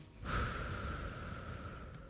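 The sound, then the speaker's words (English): A long breath out: a soft, airy hiss starts abruptly and holds steadily for nearly two seconds, faint and alone. “Turn a stomp and a shout into breathing. Breathe out.”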